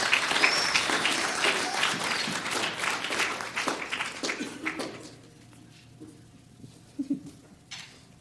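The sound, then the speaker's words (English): A church audience applauds to welcome a guest speaker: full, dense clapping that gradually dies away by the midpoint, leaving near quiet with a few small stray noises. “let's give Jeff Davidson a round, a warm Church Project welcome.”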